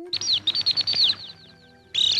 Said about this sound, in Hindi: चुचू चिड़िया बड़ी उदास, कैसे बुझाए अपनी प्यास।